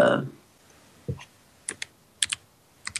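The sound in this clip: A few sparse keystrokes clatter on a computer keyboard as a number is typed in, crisp isolated clicks arriving singly and in quick pairs after a brief low thump at the start.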